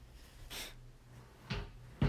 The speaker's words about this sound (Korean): 이 렌즈형 침대 아래 뭐라지 이거 서랍 같은 게 있어가지고 근데 그걸 잘못 건드렸어.